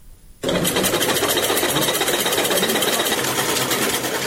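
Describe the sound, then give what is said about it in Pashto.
Sewing machines run in a tailoring workshop, a fast, steady mechanical whirring and clatter that starts abruptly after a brief quiet moment and continues loud and unbroken, with no talk. “په دې خیاطي کارخونه کې چې یو وخت ګڼ شمېر ماشینونه چلیدل اوس یوازې څو محدود ماشینونه فعال دي.”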